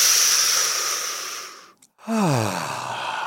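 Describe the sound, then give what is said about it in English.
A deep breath: a long, airy inhale, a brief pause, then a voiced sighing exhale that falls in pitch, with no talk. “Now, let's go ahead and take a deep breath, shall we?”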